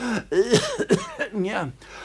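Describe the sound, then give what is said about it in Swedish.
Coughing from a man with bronchitis: several short, voiced, rasping bursts in quick succession, fairly loud and alone. “Hans bronkit missklär inte han. Han hostar så bildat.”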